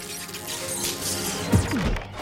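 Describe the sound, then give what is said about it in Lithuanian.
A door is slammed loudly in a single sharp crash that stands out over a quiet background. “Dabar garsiai trenk durim.”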